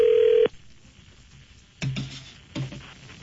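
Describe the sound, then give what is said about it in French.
Keypad tones of a telephone number being dialed: a short steady tone opens, then after a pause two brief, clear beeps sound alone. “Oui, il est déjà en train de composer.”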